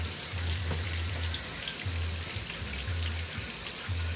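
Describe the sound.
Tap water runs steadily while a face scrubber is wetted. The hiss is constant and even, with a low hum that comes and goes beneath it.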